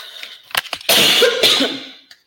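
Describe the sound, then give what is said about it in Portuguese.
A person coughs after choking, with a few short sharp bursts followed by longer harsh, raspy coughs that are fairly loud and then fade. “Desculpa, gente, engasguei aqui.”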